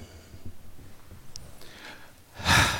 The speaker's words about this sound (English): deep breath.